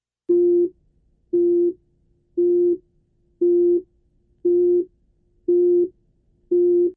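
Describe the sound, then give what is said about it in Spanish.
A steady, mid-pitched musical tone with a clean, harmonic-rich timbre, of the kind contrasted with heart sounds, sounds in seven evenly spaced bursts of about half a second each, with brief silent gaps between them. “Este es un tono musical, y habitualmente no es producido por el corazón.”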